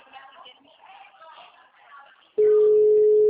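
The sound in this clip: An outgoing telephone call gives a steady, loud ringing tone that starts abruptly after a stretch of quiet talk and holds unbroken to the end.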